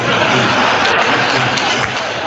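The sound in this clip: A crowd cheers after a politician's joke, making a dense, steady roar of voices that stays loud and unbroken throughout.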